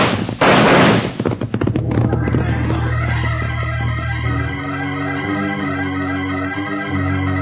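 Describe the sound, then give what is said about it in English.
Signal shot fired to call others to close in: one sharp, loud blast with a few trailing crackles, followed at once by swelling music. “And fire the signal for everyone to close in.”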